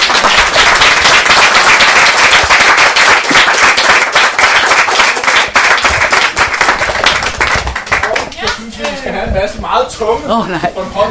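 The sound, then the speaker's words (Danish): Audience applause for debate participants as a debate wraps up: dense, loud clapping runs continuously for about eight seconds, then thins into scattered claps as a voice begins speaking. “Men I skal lige have en meget stor hånd for at stille op til den her debat.”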